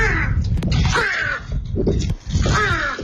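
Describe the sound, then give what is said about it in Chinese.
A pet crow kept in a Beijing hutong caws several times in a row: loud, harsh, raspy calls with brief gaps between them. “您听出来了吗？它是一只乌鸦”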